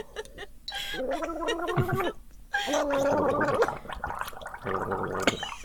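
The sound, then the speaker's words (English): People gargling together at the same time. Wet, bubbling gurgles with a voiced tone come in a few bursts separated by short pauses. “Should I gargle? I could gargle. I might gargle too. Make for an interesting. Oh, let's gargle simultaneously.”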